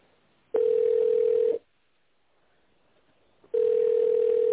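Telephone ringback tone heard while a call is transferred: two long, steady, mid-pitched tones, each lasting about a second, separated by a silent pause of roughly two seconds, with no talk.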